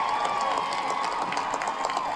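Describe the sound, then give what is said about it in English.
Crowd cheering and applauding at a Massachusetts Democratic Senator Elizabeth Warren rally on Boston Common, a dense, steady roar of many voices and hands that holds at an even level throughout. “Massachusetts Democratic Senator Elizabeth Warren fired up the crowd on Boston Common.”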